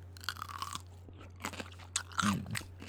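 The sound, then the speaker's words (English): Crunching and chewing of a spicy snack: a run of many crisp, brittle bites and chews close together. A low steady hum runs underneath, and no one speaks. “he loves when people eat on their podcast. So I thought I'd do that.”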